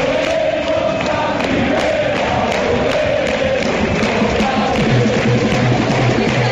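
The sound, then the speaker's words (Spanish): A football crowd cheers in a stadium: a dense, continuous roar of many voices that stays loud and steady the whole way, with no break or clear peak. “Este es el sonido de la gente ayer en el Alcoraz.”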